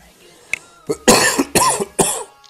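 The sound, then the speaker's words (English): A few harsh, raspy coughs burst out in quick succession, preceded by a softer cough and a small click, each loud and abrupt with short gaps between. “Also, can you cover your mouth when you're coughing? No, you're all going to get infected.”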